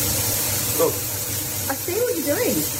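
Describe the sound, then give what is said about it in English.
Eggs sizzling as they cook in a played video, a steady frying hiss running underneath people talking. “this video of me cooking the eggs, you got them sizzling away there”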